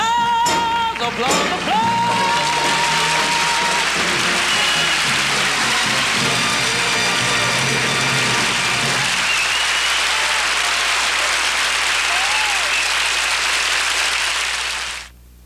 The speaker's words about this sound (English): Applause, applause, applause. I didn't hear you up there, honey.